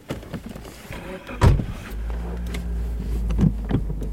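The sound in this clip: Small off-road car driving in a ski area: a few knocks and thuds, then a low, steady engine rumble that holds to the end, with no voices.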